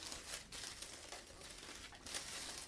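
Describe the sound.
Tissue paper crinkles softly in a continuous, very faint rustle, with a few slightly louder crackly swells.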